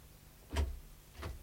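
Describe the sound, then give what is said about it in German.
A door opening, heard as two faint, short clicks a bit under a second apart over a quiet low hum. “Ja, ja, die Tür. Herein.”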